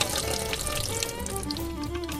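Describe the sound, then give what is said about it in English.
Extra water being poured off freshly churned butter: a steady, splashing trickle of liquid that runs continuously and fairly loud for a couple of seconds. “This is forcing out more and more of that extra water, so I'm going to pour this off.”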